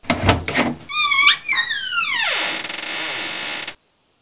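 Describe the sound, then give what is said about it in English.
A vault door opening sound effect: a few heavy thuds, then a mechanical whine that slides steeply downward in pitch and cuts off abruptly. “That's the sound of the vault opening up.”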